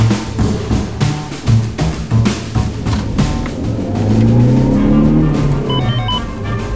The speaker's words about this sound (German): Wir fahren hinter ihr her, Richtung Schiphol. Wo seid ihr? Auf dem Autobahnring.